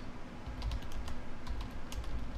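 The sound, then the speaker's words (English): Typing on a computer keyboard as a question is entered into Google. A quick, uneven run of many light key clicks continues steadily throughout. “But I'm going to type in this, like, mundane, simplistic question into Google right now just to get a stupid answer.”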